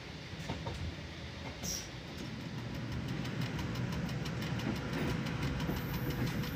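A train runs along a railway line past vineyards and fruit plantations, giving a steady low rumble of engine and wheels with faint regular clicks above it, growing slightly louder after the first couple of seconds.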